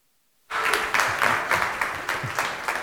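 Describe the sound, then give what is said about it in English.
An audience at a church service breaks into sustained applause for a pastor, clapping starting abruptly after silence and continuing at a steady, full level with rhythmic surges. “So let's put our hands together, and without further ado, welcome Pastor Josh Young.”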